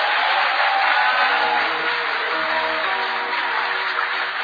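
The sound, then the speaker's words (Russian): An audience applauds to welcome a speaker at a church service, a dull, steady roll of clapping that holds at a constant level with a low hum underneath. “Давайте поприветствуем аплодисментами.”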